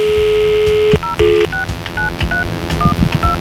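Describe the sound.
A telephone call is dialed to a contest winner: a steady dial tone, then a quick series of short electronic keypad beeps at varying pitches over low background noise.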